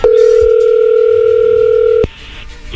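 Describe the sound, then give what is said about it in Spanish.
A telephone dial tone sounds as a call is about to be dialed, a steady, loud, unbroken hum for about two seconds. It cuts off abruptly with a click, leaving faint low noise. “A ver, vamos a marcarle, Héctor, a tu esposa Yolanda”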